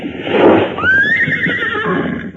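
A horse whinnies loudly: a breathy, noisy burst gives way to a high neigh that climbs, then trembles and wavers before trailing off.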